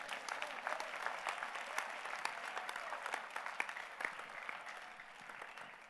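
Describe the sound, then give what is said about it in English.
Hands clapping in a church service, as an audience claps for the Lord; a fairly faint, continuous and dense patter of many hands with no break and no talk over it. “Are you clapping your hands for the Lord?”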